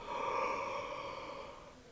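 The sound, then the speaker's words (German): A long, breathy yawn during a guided stretching and relaxation exercise, rising quickly and then slowly fading over about two seconds, with no talk. “Okay, dann starten wir mit gähnen”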